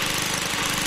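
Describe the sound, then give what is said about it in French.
A lawn mower engine runs in the Quebec area, a typical summer sound: a loud, steady, rough drone with a fast low pulsing throb, continuous for the whole second with no voices. “le doux bruit d'une tondeuse. Ce son magnifique.”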